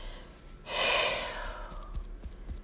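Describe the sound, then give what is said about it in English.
A single deep breath drawn in, heard as a loud, airy rush of air that swells for about a second and then tapers off, with no talking over it. “Pause for a moment, take a deep breath in.”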